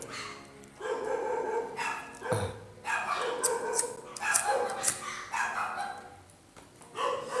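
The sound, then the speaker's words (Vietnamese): Neighbourhood dogs barking in a continuous string of many loud barks and sharp yips, dense and overlapping, with no clear pause between them. “Chó cắn ma cái gì em?”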